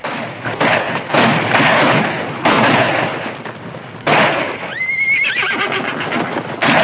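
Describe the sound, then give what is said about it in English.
Frightened horses neigh and gallop away from gunfire as pounding hooves and loud bursts of shots fill the scene. A shrill, rising whinny cuts through in the latter half. “Morgan shoots back, and frightened horses try to escape the flying ammo.”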